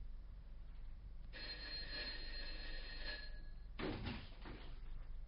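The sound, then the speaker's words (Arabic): A bell rung by a hotel guest in a dramatized scene: a sustained metallic ringing lasting over two seconds, a short pause, then a second, shorter burst of ringing. “هل ضربت الجرس؟”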